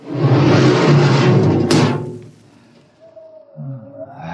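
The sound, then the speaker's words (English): A spaceship airlock opening in a radio drama: a loud, broad hissing rush holds for nearly two seconds, then dies away into a quiet low rumble. “Open the airlock.”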